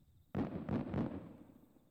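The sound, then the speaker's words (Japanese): Fireworks burst in a summer night sky as a faint, sudden rumbling boom that breaks into a few quick pulses before slowly fading. “綺麗ですね、花火。もう一つ上がった。”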